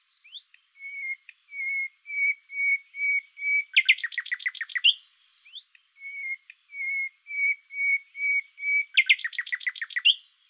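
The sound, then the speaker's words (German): A nightingale sings its whistling motif twice. Each phrase is a run of clear, level-pitched whistles at a steady pace, ending in a fast rattling trill, loud and alone against silence. “Eine Ausnahme, das berühmte Pfeifmotiv aus dem Gesang der Nachtigall.”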